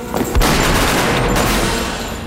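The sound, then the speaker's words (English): A dense, unbroken volley of rifle gunfire during a shootout on a building stairway: loud, rapid, overlapping cracks and booms that run continuously for about two seconds. “The three mariachis send a soldier flying back down the stairs under a hail of gunfire.”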